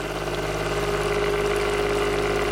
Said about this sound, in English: And you'll see once I vortex it.